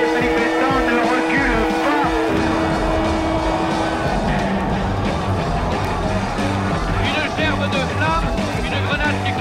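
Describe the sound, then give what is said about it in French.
Police and gendarmerie vehicles roar as they charge a crowd during a night street riot in the Latin Quarter, with fire hoses spraying water. Loud, dense engine and crowd noise runs throughout, and a voice talks over it. “Les gardes de la gendarmerie et les CRS qui sont en train de charger avec des voitures, lançant de l'eau, des lances de pompiers.”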